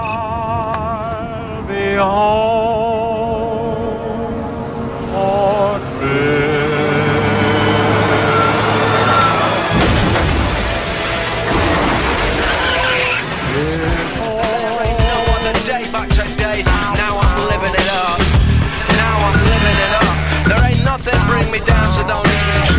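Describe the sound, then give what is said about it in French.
A car being driven in a dramatized scene where it is struck by a bus. A loud engine drone and rushing tire noise fill the whole stretch, and a dense, harsh burst of noise breaks in around the middle. “Tristan Garcia, la mort de Nathanaël Père, il meurt percuté par un bus en voiture.”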